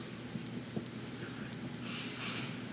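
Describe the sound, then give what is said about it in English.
Strokes of a word being written on a board: a quick run of short, scratchy squeaks over a steady low hum, with a couple of sharper taps along the way. “So once they move the line, this person's, and I'm going to write this word, self-centeredness”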